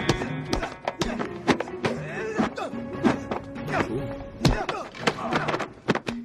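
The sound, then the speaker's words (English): Leg kicks land in a martial arts movie fight scene, a string of many sharp smacks and thuds in quick, irregular bursts over a steady tonal soundtrack. “That was a pretty cool combo right there. Pretty good. See him shaking that shin bone now? He's like, man, that hurt. Those leg kicks definitely hurt.”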